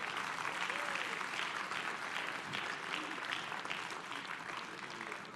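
Audience applause welcoming a pastor at a church service, fairly faint, even and continuous clapping with no break from start to finish.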